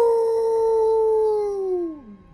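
A wolf gives one long, sustained howl with a clear, rich tone that holds steady, then slides downward and trails off at the end. It is loud and heard alone.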